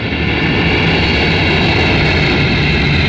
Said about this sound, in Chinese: 波音客机降落在首都国际机场